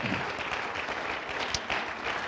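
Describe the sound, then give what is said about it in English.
A church audience claps their hands for the Lord during a service, a faint, steady patter of clapping that continues from start to finish. “Give a good hand clap to the Lord. Would you do that?”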